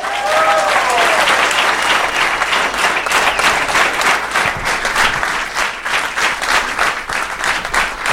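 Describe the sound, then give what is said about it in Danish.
Loud, sustained audience applause at a live show as a guest, a nail technician, is welcomed, with dense, even clapping that carries on for about eight seconds without pause. “Giv en kæmpe stor hånd til en negletekniker.”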